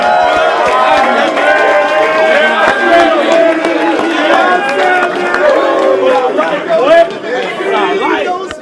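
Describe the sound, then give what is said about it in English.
Crowd noise from a college football locker room after a victory, as the coach hands the quarterback the game ball: many overlapping voices chatter and shout loudly and steadily throughout, with a brief dip near the end. “That was the sound post-game in the locker room as Coach Beamer handing the game ball over to Spencer Rattler”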